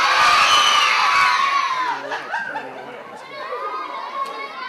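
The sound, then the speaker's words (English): A crowd of children in an audience shouting "yeah" together: a loud burst of high-pitched cheering at the start that fades into scattered shouts and chatter. “You guys want more danger? Say yeah!”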